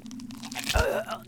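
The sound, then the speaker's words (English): A heart being ripped out of a body: one brief, wet crunching tear that peaks in a heavy low thump with a rasping, tearing texture, then fades. “You always loved ripping out your victims' hearts. I thought I'd give you a chance to see how it feels.”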